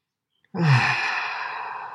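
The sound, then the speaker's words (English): A single deep, slow, conscious breath, taken as a mindfulness breathing exercise: a full, airy sigh-like breath that starts abruptly and carries on steadily for well over a second, alone. “Stop regularly and take deep, slow, full, conscious breaths. Let's take one now.”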